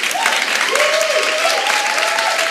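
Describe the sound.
Audience applause for a team of volunteers in a church, dense steady clapping throughout with a faint sustained tone running underneath.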